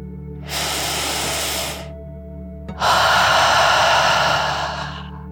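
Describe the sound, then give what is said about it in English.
One deep breath, in and then out, during a calming meditation for children. A shorter, softer airy inhale is followed after a pause by a longer, louder hissing exhale that slowly fades, with no talking. “you take one more deep dragon breath in and out.”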